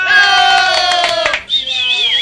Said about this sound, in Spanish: Si hay aplausos por aquí, a ver si nos acompañan.